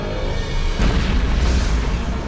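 Nuclear weapon detonation: a loud, deep explosion boom bursts in after a brief lead-in and holds as a heavy, sustained roar and rumble to the end.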